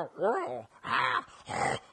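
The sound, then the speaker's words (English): A human voice imitates Wookiee growls in three drawn-out, moaning bursts with wavering, throaty pitch, separated by short pauses. “it's like 15 minutes of nonverbal giant monkey dogs talking to each other in growls. There's no subtitles. There's no explanation.”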